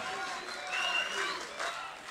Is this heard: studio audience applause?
yes